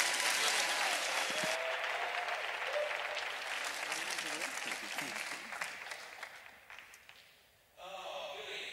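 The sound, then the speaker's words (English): An audience applauds as a speaker comes up. The clapping starts dense and full, thins out and fades over about seven seconds, and then a voice starts speaking. “Why don't we give Lakeisha a hand and welcome Billy as he comes.”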